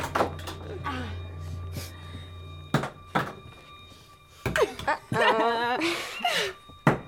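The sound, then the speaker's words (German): Hunting knives thrown one after another into the inner door of a hut land with a few sharp, dull thunks separated by pauses, over a low steady hum, with people talking. “Jeder bekam eines der 4 Jagdmesser. Und wir warfen die Messer, einer nach dem anderen, gegen die innere Tür seiner Hütte.”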